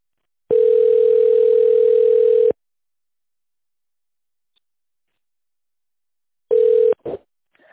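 Telephone ringback tone while a caller waits for an answer: one long, steady tone, a long silence, then a second tone cut short and followed by a brief click.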